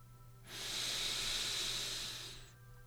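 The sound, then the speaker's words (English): A deep breath drawn in through the nose: one long, smooth, airy hiss of about two seconds that swells up, holds, then tapers away, heard alone over a faint low hum. “let's take a deep breath in through the nose.”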